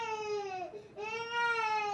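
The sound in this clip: A baby cries after waking up: two long, loud wailing cries with a brief catch between them. The first sags in pitch as it ends, and the second climbs back up.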